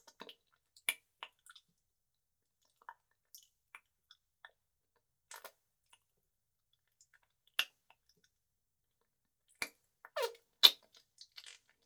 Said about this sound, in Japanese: じゃあ始めるよ。まずはキスから。